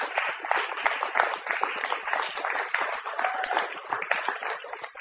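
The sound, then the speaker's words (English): An audience claps for a performer at a literary reading, a dense, even patter of many hands sustained at moderate loudness for about five seconds with no voices on top. “Jeff Klinsky, ladies and gentlemen, give him a hand.”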